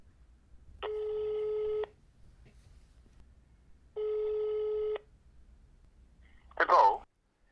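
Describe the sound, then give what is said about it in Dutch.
A telephone call rings out to someone, with two long, even ringback tones separated by a pause, followed by a brief, louder burst of sound near the end. “Ja, laten we ze bellen.”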